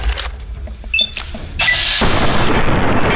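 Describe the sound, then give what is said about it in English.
Video game gunshots fired at ants, a few sharp blasts and bangs mixed with other brief game effects. “Okay, I've got 100 bullets. Maybe we're gonna go with guns here. More ants. Okay, I'm gonna shoot him in his little ant head.”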